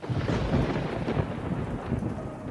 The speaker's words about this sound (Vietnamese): Trên cao mây đen dần vũ, một tia sét chói lòa xé ngang bầu trời